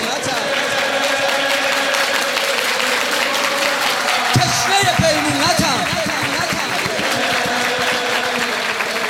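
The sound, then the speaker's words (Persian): An audience claps along to a live song. Rhythmic, steady hand claps join in partway through and carry on under the singing voice. “یه بار هم دست بزن هم بگو”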